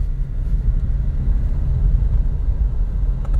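Car driving on a road around an airport, a steady low engine and road rumble that holds constant throughout with no talk over it.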